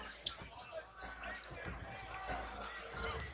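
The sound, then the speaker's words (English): A basketball dribbled on the court during a professional game: faint, repeated bounces under a constant wash of crowd noise, with many soft thuds but no steady rhythm. “crossover dribble in the lane, floater, and he missed this one.”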